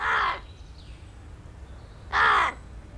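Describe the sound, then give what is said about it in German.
Two harsh, loud caws from a large black bird settling on a front door, separated by a long pause with only faint background noise between them. “Ein großer schwarzer Vogel lässt sich auf der Vordertüre neben Lodger nieder.”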